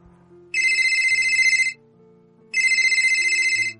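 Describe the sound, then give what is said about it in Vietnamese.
A mobile phone ringtone for an incoming call: two loud bursts of a bright, high electronic ring pattern, each about a second long, separated by a short pause, over a quiet low background. “Giang Tùng Bích gọi điện thoại tới. Lâm Duyệt Phi mang tai nghe tiếp nhận nói.”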